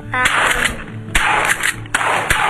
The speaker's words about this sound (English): Did you see your daddy shooting at that dove right then?